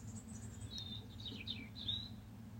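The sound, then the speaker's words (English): Birds call and sing outdoors in a few short, high, thin chirps and whistles, faint over a steady low rumble, with no talk. “the birds are still making a racket”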